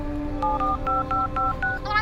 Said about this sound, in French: J'ai un coup de fil important à passer, je dois vous laisser.